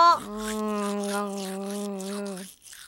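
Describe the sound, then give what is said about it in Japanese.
A toothbrush scrubs teeth in quick, rhythmic strokes beneath a sustained, steady hummed voice note that cuts off shortly before the end. “はい、歯を磨いて。”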